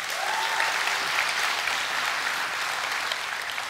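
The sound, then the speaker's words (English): An audience applauds to welcome a speaker, dense and even clapping that holds steady throughout and fades only slightly at the close. “And would you help me in welcoming her this morning?”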